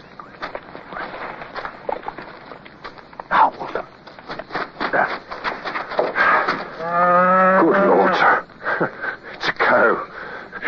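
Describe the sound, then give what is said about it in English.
Cattle near a fort in Haiti: a cow gives one long, low, drawn-out moo with rich harmonics, surrounded by steady rustling, snuffling and breathy noises. “pass the word that there are cows about”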